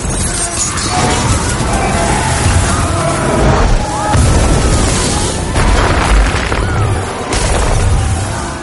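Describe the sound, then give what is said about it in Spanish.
Explosion sound effect in a 2016 fantasy adventure film, as a dark magical force bursts out and tears across a city. A loud, dense roar of crashing and rumbling fills the whole clip, swelling in a few heavier surges. “Sus ojos se ponen en blanco y explota.”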